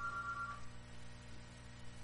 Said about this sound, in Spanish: Ahí está la otra línea llamando.